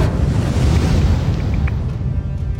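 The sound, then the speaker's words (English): Roaring fire-spell effect for a Fire Bolt, a ball of fire cast at a shadow creature in a tabletop game; a loud, deep, steady rushing whoosh that holds for the whole moment. “ball of fire will appear in his hand, and he's going to cast Fire Bolt at the shadow creature. Fire Bolt!”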